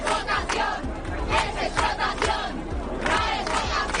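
Crowd of striking doctors protesting outside the government sub-delegation office in Alicante, shouting together in loud, rough bursts that rise and fall over a constant din.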